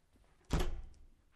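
A door bangs shut with one loud, heavy thud that rings briefly and then fades.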